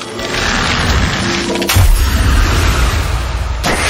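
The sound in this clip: A Freeze Ray ice attack effect in a turn-based video game battle: a loud, dense crackling burst gives way to a heavy, booming low rumble, and another sharp burst hits near the end.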